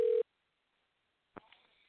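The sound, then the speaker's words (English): Ringback tone of an outgoing telephone call: one short steady electronic tone, then a long stretch of silence and a faint brief rustle near the end. “Come on, someone answer the phone”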